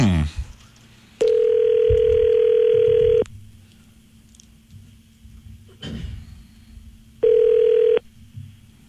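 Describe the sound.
A steady telephone tone sounds while a number is dialed in a studio, heard as a long, loud tone burst, a quieter gap with clicks and faint noises, then a shorter burst of the same tone.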